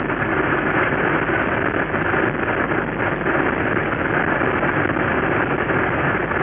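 A vehicle engine drones steadily while pulling up a hill below 3,000 RPM in a car fitted with overdrive, a continuous low, even rumble with no change in pace and no voices.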